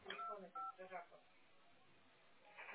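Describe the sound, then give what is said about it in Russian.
Telephone keypad dialing tones, a few brief, faint beeps mixed in with quiet talking. “Да я уже набираю ему.”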